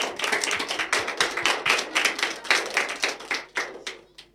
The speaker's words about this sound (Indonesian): Beri tepuk tangan untuk teman-teman kita.